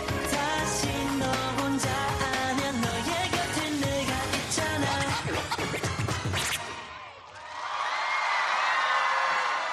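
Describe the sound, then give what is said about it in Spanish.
Loud pop music with a heavy, punchy beat cuts off, and a Korean festival crowd breaks into bright cheering and screams for the Spanish K-pop group Red Flag Dance at the World K-Pop Festival in Chingwon, South Korea. “Pues así es como recibió el público coreano al grupo español Red Flag Dance en el Festival Mundial de K-Pop de Chingwon en Corea del Sur el año pasado.”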